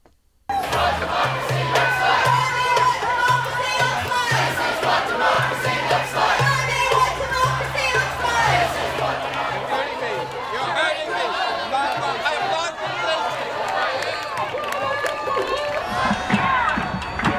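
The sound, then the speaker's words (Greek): Protest crowds shout and chant at demonstrations in Sydney, Melbourne, Canberra and Brisbane, a loud, unbroken mass of voices with cheering rising above a steady low rumble. “Τα ηχητικά αποσπάσματα που ακούμε στη συνέχεια είναι από τις διαδηλώσεις σε Σίδνεϊ, Μελβούρνη, Καμπέρα και Βρισβάνη.”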